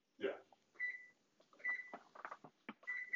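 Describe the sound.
Three faint, high electronic beeps from an oven signal it is done, spaced evenly apart, with quiet rustling and clattering between them.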